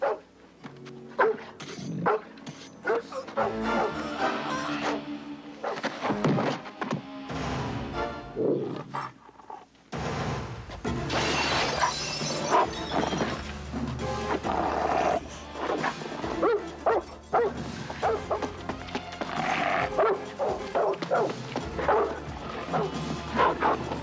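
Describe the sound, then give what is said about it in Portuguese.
Dog barking in a dubbed film scene, loud and repeated, cutting through a dense, busy background that grows fuller after the first ten seconds. “Vou apresentar você ao meu cachorro.”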